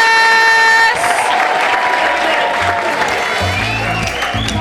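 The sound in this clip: Loud, dense applause from an Edinburgh audience welcoming a band on stage, steady clapping that continues for the whole stretch without pause.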